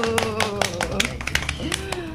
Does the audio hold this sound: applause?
yes